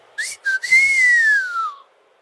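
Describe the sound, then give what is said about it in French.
A young man gives an admiring whistle: two short clipped notes, then one long clear tone that rises slightly and slowly falls away. “Le jeune homme émit un sifflement admiratif.”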